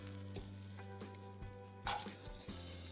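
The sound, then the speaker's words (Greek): Smoked summer sausages sizzle in a cast-iron or non-stick frying pan, a steady crackling hiss that continues throughout over a low, even hum. “Περνάμε από ένα μαντεμένιο ή ένα αντικολλητικό τηγάνι, αυτά τα υπέροχα καλοκαιρικά λουκάνικα.”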